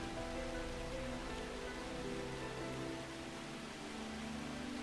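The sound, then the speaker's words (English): Rain falling on trees under grey skies, a soft and even hiss of countless drops that stays faint and continuous, with no voices or distinct events. “Pitter patter. The rain upon the trees seems to almost echo your footsteps as you flee.”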